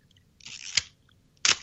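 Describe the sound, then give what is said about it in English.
A Mamiya 645 medium format film camera being operated: a brief whirring wind leads into a sharp shutter click, followed moments later by a second crisp click. Both are faint and stand alone with near silence between them. “Are you winding film in that one? Yeah, that's a Mamiya 645. That's an old. That's like a Hasselblad. That's an old medium format camera.”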